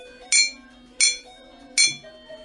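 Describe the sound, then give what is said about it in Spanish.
A spoon strikes three times, giving three sharp, bright clinks at even intervals, each ringing briefly before fading. “Para cada decena, vamos a golpear con una cuchara. Por lo tanto, si son 3 decenas, debería sonar así.”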